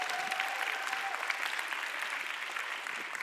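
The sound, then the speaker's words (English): Congregation applause at a Sunday church service welcoming missionary families, a dense, steady wash of clapping that stays even for the whole stretch. “Let's give them a hand to Portugal. And then we want to welcome the Robertsons from Costa Rica. Let's give them a hand.”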